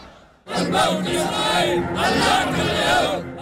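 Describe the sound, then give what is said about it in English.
A large crowd rallying in Sana'a, Yemen, in support of the Houthis, breaks into loud chanting in unison after a brief quiet moment, repeating a rhythmic phrase with many voices together. “a large crowd rallied to show support for the Houthis in their fight against Saudi forces.”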